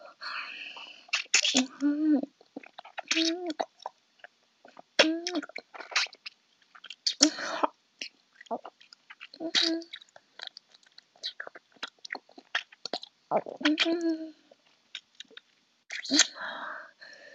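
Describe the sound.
Chewing and eating mouth sounds: many irregular wet, crunchy bites and smacks close to the mouth, with soft whispering between them.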